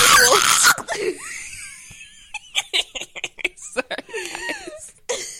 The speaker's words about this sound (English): trigger warning: screaming, blood curdling cries.